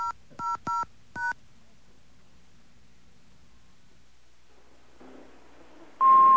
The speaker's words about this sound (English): Please re-enter your PIN now. Re-enter the PIN now.